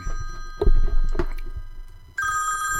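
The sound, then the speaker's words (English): A phone sitting on a piano goes off with a bright, steady electronic ringing tone that begins suddenly after a few soft thumps. “I apologize. That's the phone on John Paul Jones's piano going off there.”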